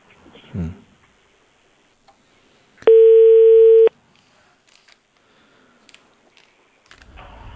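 A telephone ringback tone sounds while a call to a hotel is being placed: a single steady mid-pitched tone lasting about a second. It stands out against near-silence, with a low thump beforehand and a few faint clicks around it.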